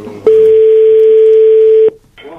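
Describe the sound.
A telephone tone as a call is placed to a contestant in a cash-prize game: a single loud, unbroken tone at one steady pitch lasts about one and a half seconds before cutting off abruptly.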